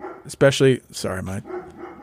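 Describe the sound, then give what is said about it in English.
Hounds barking: a few sharp, loud barks in quick bursts, with quieter rough sounds between and after them. “this is a really amateur hour operation. My hounds will bark at anything that moves.”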